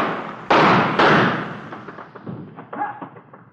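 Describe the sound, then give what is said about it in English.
A gun is thrown out and lands on the ground with two heavy, loud thuds in quick succession, followed by fainter knocks and scuffing. “throw your gun out ahead of you.”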